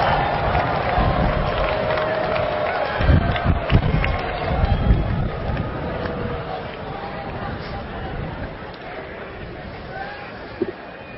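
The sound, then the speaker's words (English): Graduation audience cheering and applauding as families and friends are saluted, a dense crowd roar that swells in the middle and then settles into a steady, lower murmur of voices and clapping. “First, I want you to stand up and wave and cheer your sportive family and friends. I'm sure you can find them out there. Show your love.”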